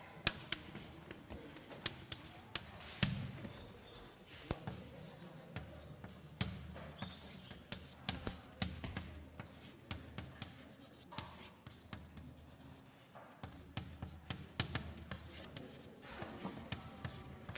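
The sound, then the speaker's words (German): Writing during a maths lecture on derivatives: many quick, scratchy strokes and taps in an irregular rhythm, fairly faint, with short pauses between bursts of writing. “Ups, das schreiben wir so noch.”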